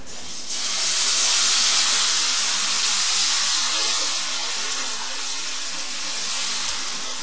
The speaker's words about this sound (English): A little bit more oil. Yeah? And next one. While we're eating that one, we cook the next one.